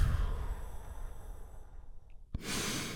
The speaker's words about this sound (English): Join me in taking a big, deep healing breath right now. Here we go. And relax.